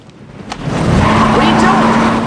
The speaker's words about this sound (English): They accelerate past the Beetle, which has someone in it.